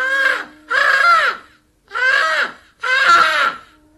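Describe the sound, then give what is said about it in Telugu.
A crow cawing: four loud, harsh, drawn-out caws, evenly spaced with short silences between, heard on their own. “ఇదో ఆ కాకిసుడు ఎట్లా అరచాండాదో.”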